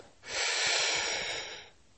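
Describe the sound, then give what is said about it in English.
A single deep breath drawn in, a soft, airy hiss lasting about a second and a half, alone and quiet. “I take a deep breath,”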